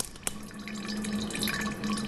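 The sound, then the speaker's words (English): Clear 150-proof liquor slowly fills an unlabeled jar with a soft, steady trickling wash, marked by one brief sharp click near the start and a faint low hum beneath. “An unlabeled jar slowly fills with 150-proof clear liquid.”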